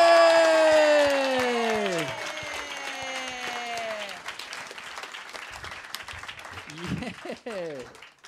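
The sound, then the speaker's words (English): Live audience applauding and cheering as a guest comedian is welcomed onto the stage at a live comedy show, with steady clapping throughout, descending musical tones over the first half and whooping voices near the end. “Please put your hands together and welcome to the stage, Claire Hooper!”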